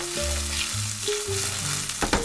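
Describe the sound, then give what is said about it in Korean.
Chopped gimbap ingredients sizzle as they are stir-fried in a frying pan, a loud, continuous crackling hiss with stirring scrapes near the end. “그 다음에는 재료들을 하나하나 썰고 후라이팬에 볶고”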